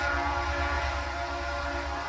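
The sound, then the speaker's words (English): Freight trains rolling through the town of East Palestine, Ohio, on a cold, blustery day: a steady, dense low rumble with a sustained tonal hum above it, holding an even loudness throughout with no voices. “the trains rolled through town one after another, as they do every day”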